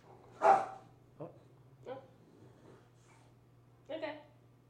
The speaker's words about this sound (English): So if you guys can hear in the background, we got a little drama between a cat and a dog.